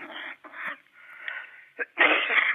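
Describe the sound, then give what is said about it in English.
A person coughs and wheezes over a phone line in several rough, raspy bursts separated by short gaps, ending with a longer, harsher burst. “Excuse me. Excuse me. I'm not well. I can't answer this.”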